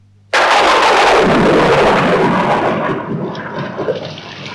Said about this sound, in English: What a miserable day. It's raining again.